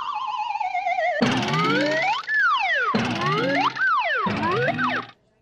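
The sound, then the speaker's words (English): Springy, cartoonish boings play as a player lands on a slime block trampoline in Minecraft after jumping from a platform 20 blocks high. A wavering tone leads into three bouncing bursts with sweeping pitch. “we built a slime trampoline and tried jumping onto it from platforms at different heights.”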